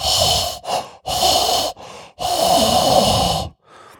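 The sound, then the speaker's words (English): A voice imitates heavy, out-of-breath breathing like someone after climbing stairs: loud, rasping inhales and exhales alternating in a few long and short breaths, with no talking. “I'm Darth Vader, because I sound a lot like Darth Vader, especially if I walk upstairs. I'm breathing so hard, like,”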